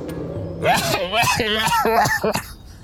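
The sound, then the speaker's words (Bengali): Nasal-voiced coughing in a spoken story, a rapid broken run of several loud, throaty coughs and hacking sounds with a strong voiced, humming tone. “বদলে খোনা গলায় এক খক খক কাশির আওয়াজ আসছে ব্যাপারটা কি হলো কাশছে কে”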